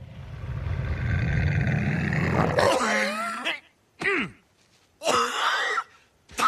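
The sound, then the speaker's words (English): Throat clearing from someone with something stuck in the throat. A long raspy, wheezing hack is followed by a few short, harsh bursts separated by brief silences. “Excuse me. I think I've got a little something stuck in my... There it is. In my throat, like a nut”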